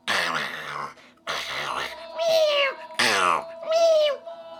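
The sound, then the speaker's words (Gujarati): Cats meow and yowl while squabbling over a flatbread. Five loud, drawn-out, strained cries come one after another, with no other sound around them. “બંને બિલાડીઓ તો ઝઘડવા લાગી”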